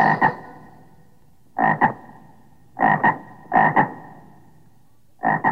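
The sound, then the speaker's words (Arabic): A frog croaks in loud, throaty double-pulsed calls, each croak made of two quick bursts. The calls come in uneven groups separated by short silences, five groups in all, with nothing else heard. “ضفدع ضفدع نق نق، اسمع اسمع نق نق”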